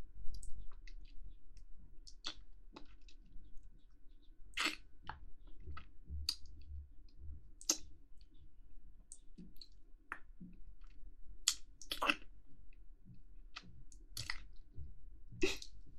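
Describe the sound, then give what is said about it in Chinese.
Faint, wet mouth clicks and smacks of someone chewing sausage, scattered unevenly across a quiet stretch with no talk. “你们不吃，我吃，我饿着呢。这个香肠，我该好好品尝啊！”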